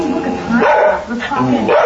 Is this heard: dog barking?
yes